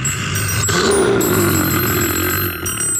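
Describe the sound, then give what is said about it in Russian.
A telephone rings with a shrill, sustained, steady tone that carries on loudly for about three seconds. “Погоди, погоди, людоед. Не превращайся. Тут у меня звонок один, очень важный. Ответить надо.”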